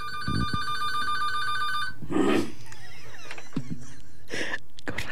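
A telephone rings for an incoming call: a steady electronic ring lasting about two seconds, then a few scattered clicks and rustles.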